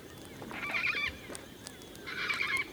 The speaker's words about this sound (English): A flock of cockatoos is flying over us. I can just see them in the fading light. They're pink cockatoos, although some people call them leadbeater's cockatoos.